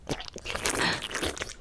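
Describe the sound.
Wet slurping and sucking mouth sounds, continuous, crackly and moist, with no voices heard.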